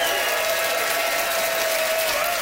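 Audience applause cast as a vote for a comedian in a comedy debate show, a thick, even wash of clapping with a faint steady tone running underneath.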